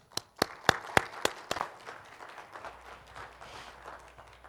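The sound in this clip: A church audience applauds a guest speaker being welcomed to the pulpit. A burst of several loud, distinct claps thins into softer, scattered clapping that fades out.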